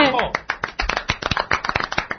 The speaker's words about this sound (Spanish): Un aplauso para ella, por favor. ¡Soltadla de ese! Y ¡aplaudidme!